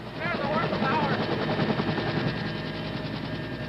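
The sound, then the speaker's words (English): Rapid machine-gun fire comes from a helicopter crew, a medic and crew chief, shooting back at uniformed North Vietnamese soldiers. Dense, sustained bursts run over the steady thudding drone of the helicopter. “Several uniformed North Vietnamese regulars are spotted by the medic. He and the crew chief return their fire.”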